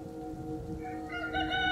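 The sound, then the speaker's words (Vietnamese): A rooster crows at dawn, one faint, drawn-out harmonic call that rises and strengthens toward the end over a low rumbling background. “Sáng hôm sau, khi gà vừa gáy sáng tiếng đầu tiên”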